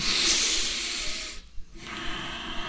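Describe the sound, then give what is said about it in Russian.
A voice imitates heavy, hissing breathing like a drunk person's: a long, loud, noisy breath, a brief pause, then another rasping hiss. “Смотрите, вот так они делают, дышат.”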